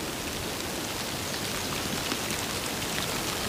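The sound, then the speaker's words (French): Light, scattered rain falling on a heap of leaves beside a ditch: a soft, steady hiss of fine drops with faint irregular patter, even in loudness throughout, with no voices. “Une fine pluie épars.”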